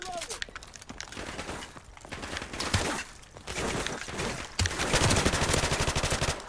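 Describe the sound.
Rapid gunfire in a video game: many dense, overlapping shots in continuous bursts that grow louder and busier toward the end.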